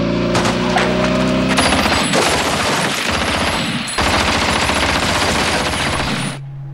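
Sustained military gunfire as soldiers open fire on command: a loud, dense clatter of rapid shots that runs almost the whole clip, then cuts off shortly before the end.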